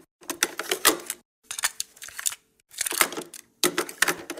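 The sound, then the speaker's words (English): Cassette tape being changed in a tape recorder: several bursts of clattering clicks and clunks from the mechanism and tape handling, separated by short pauses, with no talk. “We're going to go to a fifth side of the tape. Put a new tape in this thing.”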